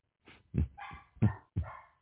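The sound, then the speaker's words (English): A dog barks in the background, several short, faint, rough barks in an uneven rhythm with brief quiet gaps between them. “That's one barking in the back, right on cue.”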